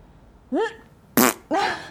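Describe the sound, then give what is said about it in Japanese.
Three fart-like bursts: a short tonal squeak first, then two louder, raspier blasts in quick succession, with no talking between them. “出る出る。おなら出ちゃう。”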